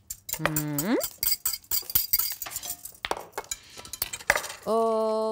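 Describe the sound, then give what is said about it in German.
Clinks and scrapes of utensils against a bowl as red onions go into a salad alongside spring onions, a busy run of sharp knocks and chinks, with voices briefly talking. “Vor dir stehen schon die roten Zwiebelchen. Die kannst du schon mal reinmachen alle.”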